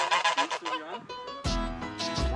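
Geese cackle and honk, a gander with his three hens on their home ground, giving a loud run of many harsh, overlapping calls throughout, with a burst of louder honks in the second half.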